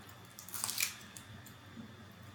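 Someone chews a tough gummy candy with lip smacking: one faint, wet squelching burst, then soft, intermittent mouth sounds.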